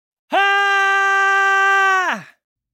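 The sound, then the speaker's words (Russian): A woman screams loudly and piercingly in one sustained, high cry of about two seconds. It starts abruptly, holds steady and trails off at the end, with no other sound around it. “он услышал женский крик. Он был настолько громким и пронзительным, что захотелось закрыть уши.”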